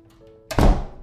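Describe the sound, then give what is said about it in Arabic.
A single heavy, dull thunk of a house front door being closed, landing abruptly about halfway through and fading quickly, after a quiet stretch of low hum. “بعد ما قفلت الباب”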